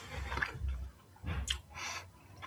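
Someone chews a mouthful of salty smoked Chinook (king) salmon, with soft, wet mouth sounds in a few separate bursts and no talking.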